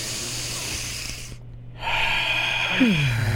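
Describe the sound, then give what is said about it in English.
Deep inhale through the nose during a guided breathing exercise: after a short silence comes a long, airy breathing hiss that grows slightly louder, over a low steady tone. “3, 2, 1, all the way in through the nose.”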